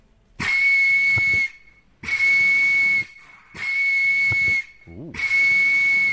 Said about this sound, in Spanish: O C. El silbido desafinado de un árbitro. Tiempo. El C. El sonido desafinado de un árbitro.